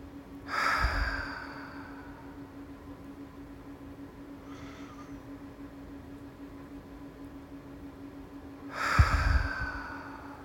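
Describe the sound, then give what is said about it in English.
Full, deep breaths: two loud, airy inhales or exhales near the start and end, with a fainter breath between them, over a quiet, steady low hum. “So take some full deep breaths in your time, in your way.”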